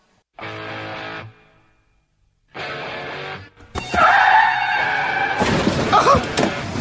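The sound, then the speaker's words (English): Car crash: two separate harsh tire skid squeals with a short silence between them, then a sudden crunching impact followed by a noisy burst of shattering glass and rattling debris. “This is the car wreck of the day.”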